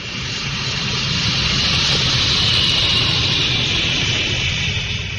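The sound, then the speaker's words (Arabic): An airplane landing at Tangier airport makes a loud, steady roar of engine whine and rushing air. The roar holds an even level for the whole clip, with no voices. “في مطار طنجة كانت الطائرة التي تقل كريم الصالحي قد باشرت عملية الهبوط.”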